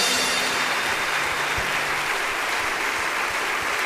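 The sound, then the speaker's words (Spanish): Applause from an audience at a worship praise service: dense, steady clapping that holds at an even loudness from start to finish with no break. “Vamos a aplaudirle fuerte al amado.”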